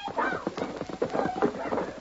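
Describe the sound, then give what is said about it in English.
Hoofbeats of a galloping horse: a fast, steady clatter of many loud hoof strikes, heard on their own without voices. “Stop that horse.”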